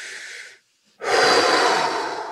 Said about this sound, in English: So first, just take a breath